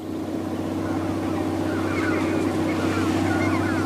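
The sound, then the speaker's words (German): A boat's motor drones steadily as it flees across the water, a constant low engine hum with a wash of rushing water and wind noise and no voices. “Er versucht, mit einem Boot abzuhauen. Wir sahen vom Hügel aus das Boot.”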